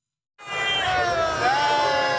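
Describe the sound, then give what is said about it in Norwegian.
A crowd cheers and whoops for riders of the Norwegian Uno-X cycling team in front of the Arc de Triomphe in Paris after the Tour de France finish, bursting in after a brief silence and holding a loud, sustained roar. “Det jubles for Uno X foran triumfbuen i Paris.”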